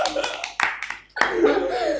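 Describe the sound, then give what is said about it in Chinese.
Applause from an audience welcoming a guest onto a talk-show stage, a short burst of clapping that follows and overlaps people talking. “好，有请喷子二娃上场，大家掌声欢迎。”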